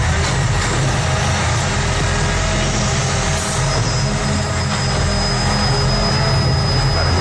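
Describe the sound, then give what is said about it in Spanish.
A garbage truck empties a cardboard recycling container in a city in the small hours of the night, a steady loud mechanical roar with deep engine rumble and broad hissing noise throughout. A thin high whine joins about halfway through. “Un camión de recogida de basura.”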